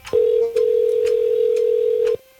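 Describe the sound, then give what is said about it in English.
A telephone ringback tone after a number is dialed: a single steady, mid-pitched electronic tone that holds for about two seconds, with a brief dip near its start, then cuts off. “It's one of those weird rings.”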